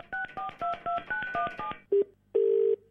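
Telephone keypad tones as a call is placed: a rapid, evenly spaced run of dialing beeps, then a short lower tone and a longer steady ringing tone, alone without voices.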